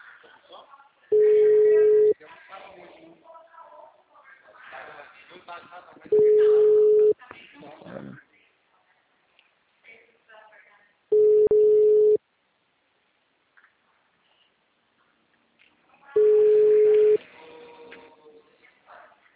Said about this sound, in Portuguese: Alô? O número está ocupado.